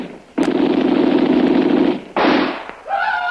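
Rifle gunfire during a firefight around a house with a machine gunner, heard as a loud, sustained burst of crackling noise, then a shorter second burst and a fainter tonal sound at the end.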